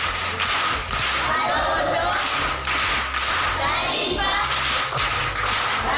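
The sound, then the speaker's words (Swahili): Schoolchildren at a primary school applaud a classmate who answered a history question. The clapping is dense and steady throughout, with thumps and shuffling mixed in. “Makofi kwa mjomba.”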